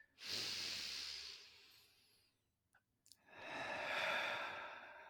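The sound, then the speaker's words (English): Deep, slow breathing: two long, airy breaths a few seconds apart, each swelling and fading softly, with a couple of faint clicks in the quiet gap between them. “Let's just take a breath. I feel like let's just take a breath together, okay? Everyone out there can join us. One more breath here.”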